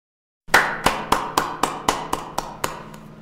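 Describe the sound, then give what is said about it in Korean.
One man slowly claps his hands after a song ends: ten sharp, evenly spaced claps break a short silence, each with a brief ringing tail, fading slightly toward the end. “아니, 이 남자가 박수를 치는 거야.”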